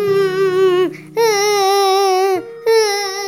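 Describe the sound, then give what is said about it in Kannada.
Drawn-out wailing cries from a grieving queen and king in the royal inner palace: three long, high, steady wails with a slight waver, each sagging in pitch as it ends, loud, with a low steady tone under the first. “ಅಂತಃಪುರದಲ್ಲಿ ಒಂದು ಕಡೆ ಮಹಾರಾಣಿಯವರು ಅಳುತ್ತಿದ್ದಾರೆ, ಮತ್ತೊಂದು ಕಡೆ ಅರಸರು ಅಳುತ್ತಿದ್ದಾರೆ.”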